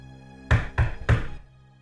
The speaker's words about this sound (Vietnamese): Tiếng gõ cửa phát ra từ bên ngoài.